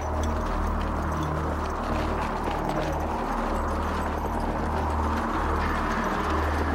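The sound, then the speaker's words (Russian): Horses' hooves and soldiers' marching feet tramp across sandy hills in a dense, continuous rumbling clatter that stays loud and even throughout, with no clear individual steps standing out. “Большое облако пыли вздымается от топота ног и копыт лошадей.”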